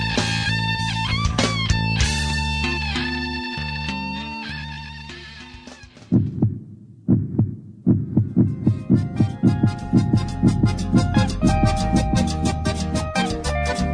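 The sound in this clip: A heartbeat sound effect plays as a steady series of low, regular thumps that begins partway through. Before the thumps start, a sustained musical passage fades down, and music continues underneath them.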